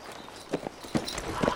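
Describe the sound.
Horse hooves clip-clop as a rider sets off from a ranch, a few uneven hollow knocks at a walking pace over a soft background hiss.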